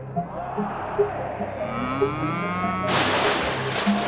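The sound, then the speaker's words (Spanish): A bull moos in a radio studio: a long, low, harmonic bellow that bends in pitch, then gives way to a sudden loud, noisy burst that fills the second half. “la SER fue el primer medio de comunicación que se atrevió a invitar a un toro al estudio.”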